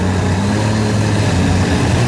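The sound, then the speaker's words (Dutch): Lewis Hamilton's Formula 1 car engine heard onboard during the 2023 Austrian sprint race, a loud, steady droning tone with strong low harmonics and no clear gear shifts. “Onboard geluiden bij Lewis Hamilton vandaan.”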